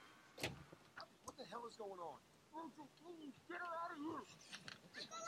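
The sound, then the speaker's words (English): A door opening with a brief, sharp click near the start, followed by people talking. “Why did the door open?”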